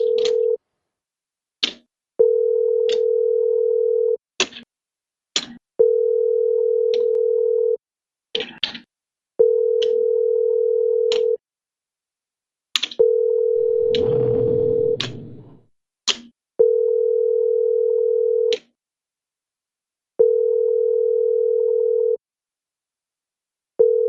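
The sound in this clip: A repeating telephone tone heard while a call is placed, sounding in long steady bursts of about two seconds separated by short silences and clicks, with a brief rustle of noise partway through.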